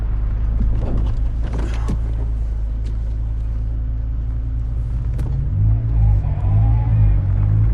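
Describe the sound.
A car engine rumbles as the vehicle drives out of a garage onto a two-lane street lined with brick warehouse buildings. The low drone stays loud and steady, then rises briefly in a revving swell toward the end.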